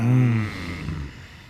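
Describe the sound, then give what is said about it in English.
A group of people groaning together in unison, low voiced and drawn out, fading away over about a second and a half. “On three, we all, you know, groan. One, two, three.”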